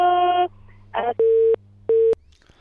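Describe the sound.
A telephone busy tone sounds after a caller's line was cut off while she sang: a few steady, even beeps with short gaps, plus a brief burst of garbled sound between them.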